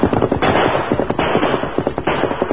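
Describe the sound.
A gang fires rapid gunfire in a canyon, many sharp, loud shots cracking in quick, uneven bursts with hardly any pause between them.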